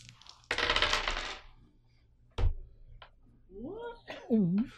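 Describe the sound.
Dice are rolled during a tabletop roleplaying game: a rattling burst of clatter, then a single sharp clack, followed by brief voiced sounds from a person.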